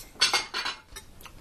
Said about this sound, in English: All right, let's put this in some bowls. Yeah. Bowls and plates. Soup and salad.